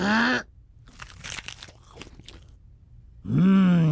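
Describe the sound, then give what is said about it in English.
Crunchy biting and chewing into a Krusty Burger Mother Nature Burger made from wheat-fed barley, a run of many rough, irregular crunches between a voiced hum at the start and another at the end. “Introducing the Mother Nature Burger, made from 100% wheat-fed barley. And now to take a yummy bite.”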